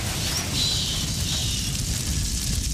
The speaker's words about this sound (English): This is the deadly menacing sound of an approaching bushfire. Frightening, isn't it?